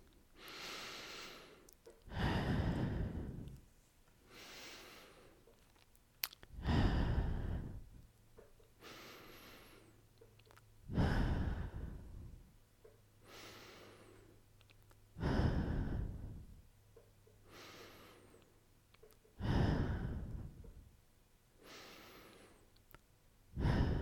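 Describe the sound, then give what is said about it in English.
Slow, deep human breathing, with breaths drawn in through the nose and let out through the mouth in a steady repeating cycle of loud, airy rushes every few seconds, heard alone without speech. “take six deep breaths with me in through your nose and out through your mouth”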